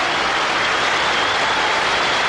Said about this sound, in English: Oh my God, so much applause.